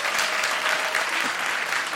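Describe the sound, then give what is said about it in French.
Audience applause at a live comedy show, dense continuous clapping from a large crowd, loud and steady throughout with no voices heard over it. “Alors, Est-ce que je peux savoir, par applaudissement, qui est 100% végétarien 100% du temps”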